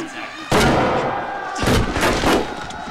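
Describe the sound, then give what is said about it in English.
Gunfire slams into a door, riddling it with bullets. A few heavy, loud impacts and bangs cut through, with sharp bursts at the start and a cluster of strikes toward the end. “The door is filled with bullets.”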